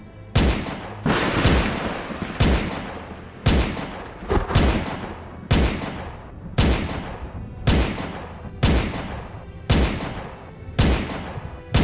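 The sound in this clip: Gunshots, a long series of loud booming shots fired at a steady pace of roughly one per second, each with a sharp attack and a short fading tail, with no voices between them.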